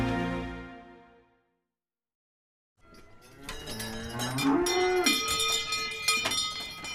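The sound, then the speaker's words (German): Cows mooing in a dairy barn on a Black Forest farm at early-morning milking time: a low call fades out, a couple of seconds of silence follow, then a long, loud, drawn-out moo. “So, jetzt wird meine Kuh Yvonne gemolken.”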